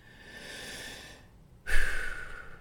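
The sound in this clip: Deep breathing during a guided meditation: one slow, soft inhale, then after a short pause a louder rushing exhale, heard alone without talk.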